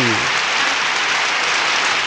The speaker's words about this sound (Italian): vi beccate pure sta applauso, ragazzi, tutto per voi.